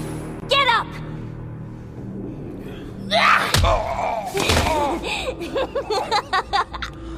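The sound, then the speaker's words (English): A runaway hover wagon with failed brakes crashes through a wall in a sharp, loud slam and thud midway, surrounded by excited voices and gasps in an animated scene. “The hover wagon is moving forward! It's going to crash through the wall! Drock! The brakes have failed!”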